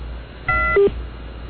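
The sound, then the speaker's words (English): Fax machine tones on a telephone line: a short multi-tone burst gives way to a brief lower beep, together lasting under half a second over faint line hiss. “That's a fax machine. That also could be our guy. Sure, yeah. He could simply be turning on his fax machine.”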